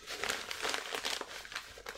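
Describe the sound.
Paper crinkles and tears faintly as an award card envelope is opened, heard as a series of soft, uneven rustles with no voices.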